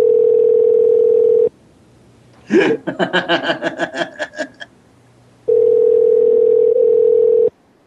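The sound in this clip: A telephone dial tone sounds after the caller hangs up. The steady, loud tone plays, breaks off for a short rhythmic vocal burst, then returns and stops.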